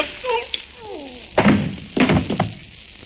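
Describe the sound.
Two dull thunks of a gun butt striking someone, each a short heavy blow, the second followed by a quicker smack, coming after a brief stretch of voice.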